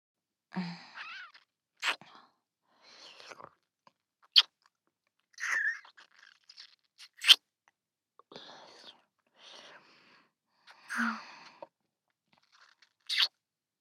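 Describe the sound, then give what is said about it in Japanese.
Soft, wet kissing and lip smacks repeat in many short, irregular bursts, separated by quiet breathy sounds and pauses. “私の唇、美味しい？美味しいのね。キス、気持ちいいね。”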